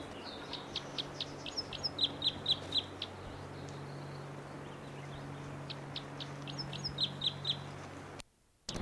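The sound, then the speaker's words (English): A bird calls from a tree above a camp. It gives repeated bursts of short, high chirps in quick runs, separated by pauses, over a faint, steady low hum. “Bird's right in the tree above the camp. And this is it.”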